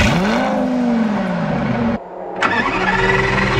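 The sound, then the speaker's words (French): A Lamborghini V10 engine starts and revs with a loud, throaty, harmonic roar. The sound briefly drops off, then surges back strongly. “C'est le bruit d'une Lamborghini”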